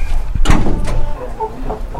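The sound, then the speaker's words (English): Two chickens kept in a house cluck in short, throaty bursts, a few sharp clucks and softer murmurs spread across the moment, over a low background rumble. “Her brother and his fiancé are also living here, and so are two chickens.”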